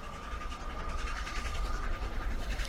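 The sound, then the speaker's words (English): A train approaches along the tracks, its low rumble and broad, steady roar building gently and staying loud throughout, with no talk. “So as the train is coming, you can now see it. Sort of, you can feel it now as the ground is starting to shake.”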